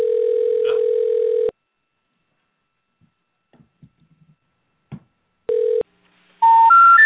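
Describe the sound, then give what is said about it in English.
A steady telephone dial tone sounds on an office line as a caller dials out with a 1 and a 9 for an outside line. The tone stops, a few faint clicks follow, the tone returns briefly, then a short run of dialing beeps plays. “So I'll just add a 1 at the beginning. See? Yeah, you have to dial 1. Dial 9 to get an outside line.”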